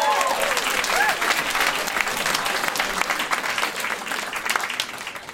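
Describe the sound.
Clapping from an audience welcoming a speaker to the stage at a live event. Dense, steady applause fills the whole stretch, with a few brief vocal cries near the start.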